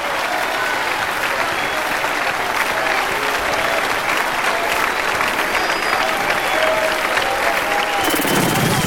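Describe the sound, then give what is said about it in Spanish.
Loud, sustained applause from an audience at a Christian worship gathering in Medellín, Colombia: dense, steady clapping that continues unbroken until it cuts off abruptly near the end. “¡Oh, aplaudale fuerte que eres digno!”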